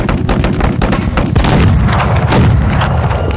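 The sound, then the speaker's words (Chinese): Artillery shelling of the village strongpoint of Huangzhuang in wartime, a dense, loud barrage of deep booms and sharp cracks that pile up continuously without any quiet gaps. “八路军开始炮击黄庄。”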